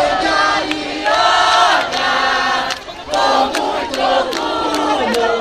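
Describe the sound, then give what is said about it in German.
A large crowd cheers and celebrates as Brazilians welcome the Olympic Committee's choice of Rio de Janeiro as host city. The dense, loud roar of shouts swells and dips in several waves, with a brief lull near the middle. “Grenzenloser Jubel bei der brasilianischen Delegation in Kopenhagen, grenzenloser Jubel in der brasilianischen Metropole am Zuckerhut.”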